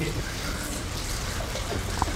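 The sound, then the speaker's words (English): Heavy rain falls at a camp in the North Georgia mountains. It makes a steady, even hiss of downpour that holds at a constant moderate level with no break. “Heavy rain falls at Ramah Daron”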